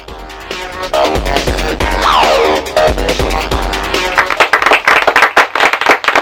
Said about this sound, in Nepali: फेरि पड्क्यो ताली